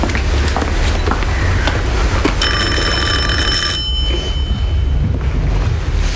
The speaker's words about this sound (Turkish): Neden kapımı çaldı gülüm?